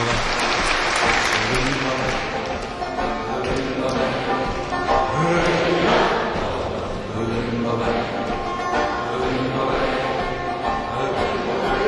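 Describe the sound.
Live concert audience clapping in rhythm through a folk song performance, with singing and music carrying on above the steady beat of hands.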